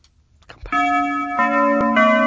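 A bell sound effect rings out after a soft, brief lead-in: a bright, sustained tonal chime that is struck again a few times, shifting its tone slightly, and rings steadily and loudly to the end.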